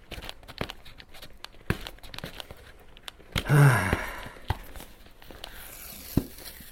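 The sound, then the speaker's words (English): Peeling a sticker off a noodle package: a single short, rasping tear with a crinkle partway through, set against a quiet background with a few faint taps. “So there's a sticker on here, but if I take the sticker off, there's more information.”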